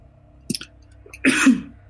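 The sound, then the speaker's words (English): Coughing from a person, heard alone: a short, sharp double cough followed by a longer, harsher cough. “Excuse me, I'm coughing here.”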